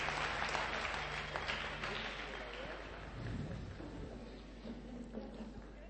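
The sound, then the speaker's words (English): Applause from an audience at an event, cheering on the sound and AV team, a dense, steady wash of clapping that stays loud throughout and eases slightly in the second half. “Let's give a hand again for the sound and the AV people.”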